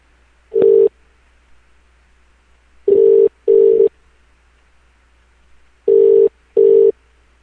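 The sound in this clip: Ringback tone of an outgoing phone call ringing at the other end: a single steady buzzing tone, then two double-ring pairs, loud and alone with silence between.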